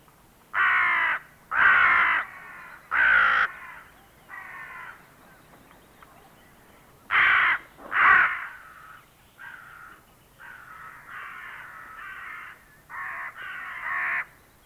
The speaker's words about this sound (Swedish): nu följer kråka.